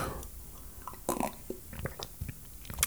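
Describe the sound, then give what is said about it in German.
Sipping a drink, heard as a few short, soft mouth and swallowing noises with small clicks, scattered across a quiet stretch with no talking. “Ich trinke mal kurz einen Schluck.”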